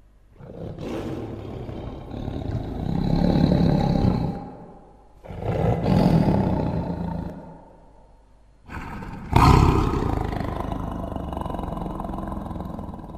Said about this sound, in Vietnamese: từ bên kia bỗng nhiên vang lên tiếng hổ gầm đến rung chuyển cả núi rừng.